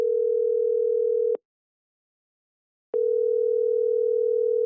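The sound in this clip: Steady, single-pitched telephone dial tone while a call is being placed. It hums continuously, cuts out for about a second and a half, then resumes unchanged.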